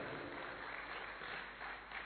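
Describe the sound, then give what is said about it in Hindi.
Audience clapping hands loudly at a gathering, a dense, steady wash of applause from many people that holds at an even level throughout. “आप सभी अपने करतली से यहां से इतना जोर से ताली बजाएं वो जहां भी है उन तक पहुंच जाए।”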